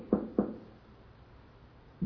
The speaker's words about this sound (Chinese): 一个礼拜天的早上，他的总统大轿车开到那个小孩子家门口，他就下来去叩门。